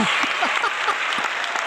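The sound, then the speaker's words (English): An audience claps to welcome a guest being introduced, a steady, even patter of many hands that carries on alone with no pause across the short stretch. “So, ladies and gentlemen, please put your hands together and help me welcome the blue collar oxy knee emphasist”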